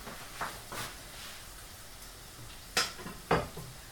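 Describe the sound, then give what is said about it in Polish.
A crepe is flipped and fries in a pan, with a few sharp clinks and clatters of pan and utensil over a faint, steady sizzle, and no talk. “możemy go spokojnie odwrócić. I smażymy sobie z drugiej strony.”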